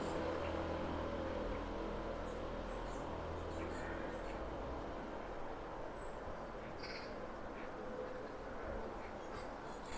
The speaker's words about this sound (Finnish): harakkaporukka juttelee tuolla metsässä. Samoin jotkut pikkulinnut.